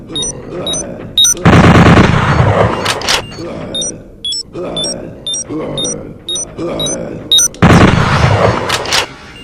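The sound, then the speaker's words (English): An automatic bolt gun fires in a video game, giving two long bursts of dense, booming rapid fire. Between the bursts come choppy bursts of shots and high electronic beeps, with voices mixed in. “When you shoot them... automatic bolt gun.”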